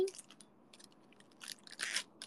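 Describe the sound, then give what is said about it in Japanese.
Crinkling, crackly rustle of a Hololive Man chocolate wafer package being torn open, with several sharp bursts of plastic crackle that grow louder toward the end. “ホロライブマンチョコ、うまいって言ったくせにね。開けまーす。”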